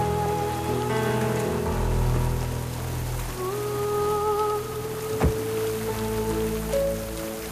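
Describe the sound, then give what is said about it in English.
Rain falls on a red rose lying on a bed of white flowers, making a steady, even patter of drops throughout. “Raindrops fall on a red rose lying on a bed of white flowers.”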